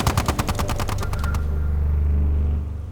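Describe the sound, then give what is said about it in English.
A chain gun fires a rapid burst of many sharp, evenly spaced shots during a combat exchange. The clatter stops abruptly about halfway through, leaving a loud, low rumble that holds to the end. “Give me the chain gun! Sir! Now! Uh, fire back! Fire back!”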